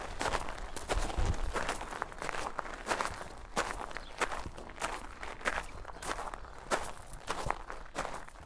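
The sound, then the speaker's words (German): Footsteps crunch along a gravel path in a garden: many steady, evenly paced steps that continue throughout at moderate loudness, with no talking. “auf diesen Schotterwegen, begeben wir uns jetzt mal rauf zum Tor”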